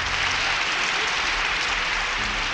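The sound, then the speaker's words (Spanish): Audience applause welcoming a guest on a talk show: a dense, steady wash of clapping that holds at an even loudness throughout, with no voices rising above it. “Recibamos con un fuerte aplauso a Mario Julio Lemiento”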